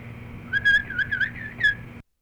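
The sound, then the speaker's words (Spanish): Small bird chirping, a quick series of high, thin whistled chirps in short bursts over a steady low background noise, stopping abruptly. “Pero el pajarito.”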